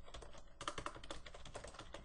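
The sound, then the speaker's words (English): Keyboard typing while writing code: a rapid run of many crisp keystrokes with uneven rhythm, clattering on alone with no talk. “So I can simply type in this.”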